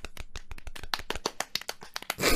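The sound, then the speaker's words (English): One man clapping in applause: a quick, irregular run of many sharp hand claps, ending in a brief louder burst of noise. “that's the applause from a man who is angry with me.”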